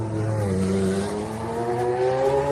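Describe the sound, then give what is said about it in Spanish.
A 1988 McLaren MP4/4B Formula 1 car engine, once driven by Ayrton Senna, holds a loud, sustained high-revving buzz whose pitch creeps gradually upward, with no other sounds. “Ha adquirido el piloto asturiano una pieza de coleccionista, el McLaren MP44B de 1988, que pilotara Ayrton Senna y que suena así de bonito.”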